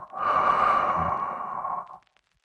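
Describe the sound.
A deep, slow exhale during a bedtime relaxation breathing exercise: one long, soft, breathy rush of air lasting almost two seconds, heard alone.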